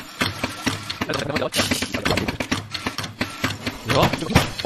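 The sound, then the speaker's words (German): An espresso machine pump runs while brewing without a pressure profile, giving a steady low mechanical hum and buzz under people talking. “Achtung, die Maschine ist natürlich ultra leise. Wahnsinn, die Pumpe hörst du fast gar nicht.”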